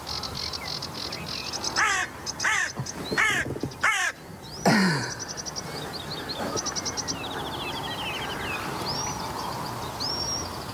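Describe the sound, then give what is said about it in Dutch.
A carrion crow, a black crow near people in a small boat, caws in a quick series of harsh, rasping calls. Steady insect chirring and crickets run throughout, with thin higher bird whistles later. “Ja, die kraai komt even kijken wat die mensen in het bootje hier aan het doen zijn.”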